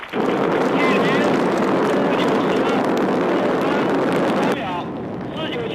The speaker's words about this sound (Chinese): 火箭在轰鸣声中腾空跃起，直入苍穹。